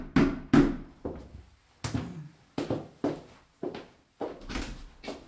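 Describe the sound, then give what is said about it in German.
Knocking on a front door: a series of sharp, heavy knocks at uneven intervals, each loud with a short decay, with quiet gaps between them and no voices. “Stattdessen klopfte es an der Haustür.”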